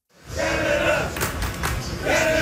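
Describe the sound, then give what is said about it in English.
Canada soccer fans chanting in the streets of downtown Houston before a World Cup round of 16 match against Morocco: a loud, sustained crowd chant with a few dull thuds in the middle. “Those chants are filling the streets of downtown Houston”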